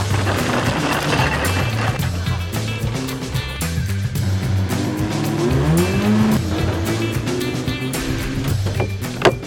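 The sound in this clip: Race car engine roaring on a track, a loud, continuous, harmonic-rich drone that holds steady, then climbs in pitch partway through, with a brief sharp click near the end.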